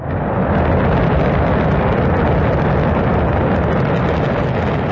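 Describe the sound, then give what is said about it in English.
A continuous heavy roar from the Shenzhou 23 rocket blasting off from Inner Mongolia: a dense, loud rumble holding steady throughout, with no voices. “That is the Shenzhou 23 rocket blasting off on Sunday from Inner Mongolia.”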